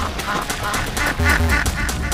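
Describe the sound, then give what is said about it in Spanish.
Ducks quack over and over in a duck-shooting video game, with many nasal, honking calls in quick succession over a steady, busy game background. “A ver cuántos patos matamos. Uno, mataste a un pato.”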